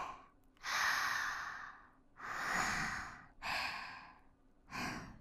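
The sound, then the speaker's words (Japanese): Slow, deep breathing in and out: four long, airy breaths that swell and fade in loudness, separated by brief gaps. The breaths are quiet and heard alone. “ゆっくり深呼吸して。吸って、吐いて。”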